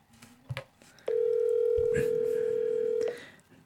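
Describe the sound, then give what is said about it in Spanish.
A steady telephone dial tone holds for about two seconds while a call is being dialed, with a few faint clicks and knocks from the handset before and during it. “Le voy a seguir marcando.”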